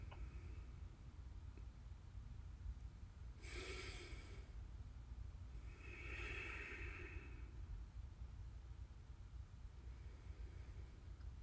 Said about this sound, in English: So I invite us to close our eyes. We're going to take some breaths.